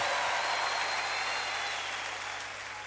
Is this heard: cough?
no